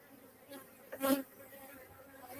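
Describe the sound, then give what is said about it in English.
Honeybees buzz at an open hive during an inspection for a queen. A faint, steady, layered hum runs throughout, with one brief louder swell near the middle. No one speaks. “I've looked all through it and I've not yet seen a queen, not saying there isn't one. It's possible. But what I'll do, I'll close this hive back up.”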